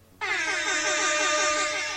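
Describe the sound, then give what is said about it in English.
An air horn sounds one sudden, loud, sustained blast that starts sharply after a brief quiet moment and holds steady, brassy and harmonic-rich, to the end. “The air horn is back. After a long absence, the air horn has returned.”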